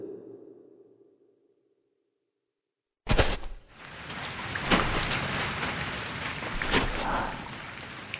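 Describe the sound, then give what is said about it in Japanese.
Rain begins abruptly after a few seconds of near silence as a dense, loud, hissing wash, with scattered sharper splashes and crackles running through it. “雨か。”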